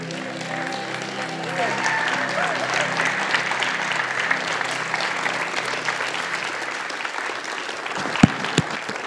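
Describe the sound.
A church audience applauds to welcome two pastors, a thick and even wash of clapping that builds slightly and continues with a few sharp, louder claps near the end, while voices mingle in the crowd.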